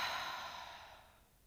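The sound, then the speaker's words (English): A long breath let out during a guided breathing exercise, a soft, airy whoosh that starts strongest and gradually fades over about a second and a half, with no talk over it. “Inhale again. Hold it there. Let it out.”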